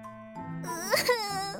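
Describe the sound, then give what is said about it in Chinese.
A woman's voice performs exaggerated fake crying, a brief wavering, high-pitched wail with a quivering, sobbing quality that swells and then trails off. “各种哭声展，假哭”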